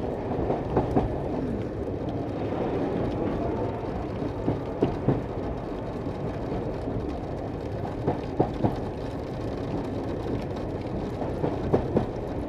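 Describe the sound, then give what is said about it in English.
A train arriving on a one-mile museum railway track, a steady low rumble with scattered sharp clicks and clanks from the wheels and cars, without voices. “Trains are about to stop. Here it is. It's about to stop.”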